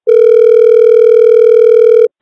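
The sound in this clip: A steady telephone tone, heard when calling a mobile phone served by a 5ESS exchange: one loud, unbroken buzzing note lasting about two seconds, sounding alone and stopping abruptly.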